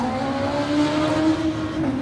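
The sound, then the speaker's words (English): A Suzuki racing motorcycle accelerates away under full power, front wheel in the air, toward the S-bend at the top of Bray Hill. Its engine gives a loud, steady, high whine throughout. “Front wheel pouring the air as he puts the power down under the Suzuki banner and disappears around that S-bend at the top of Bray Hill.”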